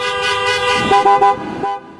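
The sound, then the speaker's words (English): Car horns honked by protesters outside the Michigan state Capitol blare in a steady, overlapping chorus of sustained tones, with a few louder short blasts on top before the sound fades out. “thousands honked their horns outside.”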